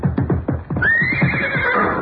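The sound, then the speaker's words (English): A horse neighs in a riding ring with a loud whinny that starts with a quick series of throaty pulses, then stretches into a long, high, steady cry lasting to the end. “Take it easy with that horse.”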